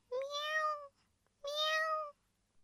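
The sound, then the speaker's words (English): A cat meows twice, each meow long and clear with a slight rise then fall. A short quiet gap separates the two, and no voices or other sounds are heard. “Good morning, kitten. Meow, meow, meow.”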